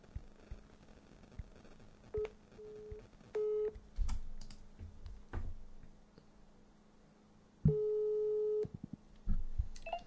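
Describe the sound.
Telephone tones sound while a caller redials a number: a few short electronic beeps and then one longer steady tone, with faint clicks and rustling between them and no talk.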